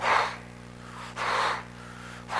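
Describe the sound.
A human voice imitating horses panting after running hard in the heat: three breathy, hissing huffs with short pauses between them, fairly loud and alone.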